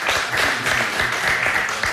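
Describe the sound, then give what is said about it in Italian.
Applause rises as a steady, even wash of many clapping hands, moderately loud and unbroken for about two seconds. “Vabbè dai, un applauso”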